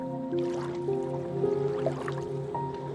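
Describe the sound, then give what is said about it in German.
Soft, irregular watery squishes and drips as an animal wades into shallow water, quiet over a steady bed of sustained low tones. “Auch Kapi geht nun in das flache Wasser hinein”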